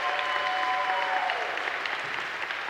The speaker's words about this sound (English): Hey, how about another hand for the youth leading us this morning in worship?